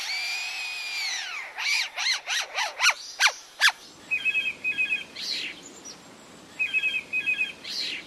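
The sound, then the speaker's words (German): A lyrebird imitates a cordless screwdriver, opening with a drawn-out whine that bends downward. It continues with a series of sharp swooping chirps and short stuttering bursts of rapid clicking trills, with no voices. “Und welchen Sinn ergibt der Klingelton aus der Amselkehle nun oder der Akkuschrauber-Sound bei dem Leierschwanz?”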